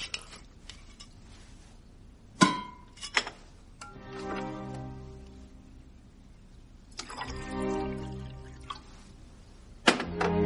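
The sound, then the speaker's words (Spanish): Alcohol and orange juice are poured into a glass at a breakfast table. Sharp glassy clinks alternate with two sustained splashing pours, and a final clink ends the sequence. “Él se sirve una copa de alcohol con zumo de naranja mientras ella bebe un café.”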